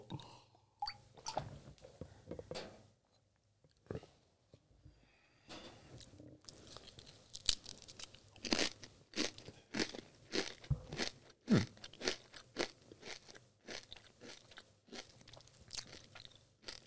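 Crunching and chewing of a fried snack made from pressed lentils and various spices: many crisp bites and crackles follow one another at an uneven pace with brief quiet gaps, steady and fairly faint, with no talking.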